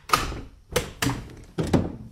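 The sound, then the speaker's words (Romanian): A door bolt being drawn back, heard as four hollow thunks in an uneven rhythm, the last one doubled, with short quiet gaps between them. “Însă iedul cel mare se dă după ușă și să tragă sau să nu tragă. În sfârșit, trage zăvorul.”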